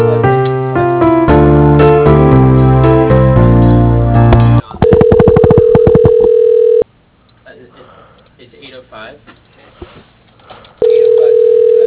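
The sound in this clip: Phone-line tones during a call transfer: a run of short dialing tones, then a steady held tone, a quieter stretch, and the steady tone returning, all with thin, narrow telephone sound.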